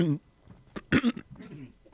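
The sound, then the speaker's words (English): A short, stifled cough in a studio, a brief burst that breaks into a person's talk. “suddenly I had to suppress a cough. It's spreading through our studio here”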